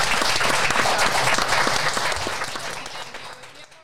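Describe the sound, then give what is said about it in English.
An audience at a panel event gives a round of applause. The clapping is loud and dense at first, then gradually thins and fades toward the end. “so round of applause. How awesome.”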